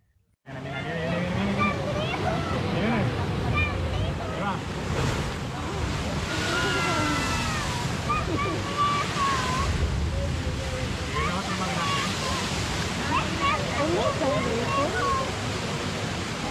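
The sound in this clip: Surf crashing and spraying at La Bufadora on a windy day, a steady loud roar of churning water that holds throughout, with people talking over it.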